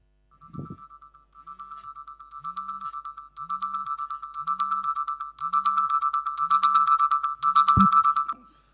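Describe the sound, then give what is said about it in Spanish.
An alarm clock rings from a mobile phone: a repeating electronic ringtone pattern that grows steadily louder as it cycles, with a soft thump near the start and another near the end. “Suena el despertador. Por supuesto, el sonido sale de mi móvil.”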